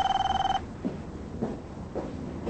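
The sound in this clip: A telephone rings with a rapid, bright trilling bell for about half a second, then stops abruptly. A few soft, faint knocks follow in an otherwise quiet room.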